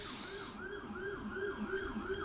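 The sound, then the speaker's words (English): A siren passes outside, its wail rising and falling in a steady repeating cycle several times over. The sound is faint and continuous, with no voices. “Siren. All good.”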